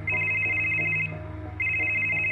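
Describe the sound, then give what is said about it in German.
A car telephone rings in two long electronic bursts separated by a short pause, a steady high tone over a low, constant hum. “Am 20. Januar 2003 klingelt am späten Abend das Telefon im Wagen des 38-Jährigen.”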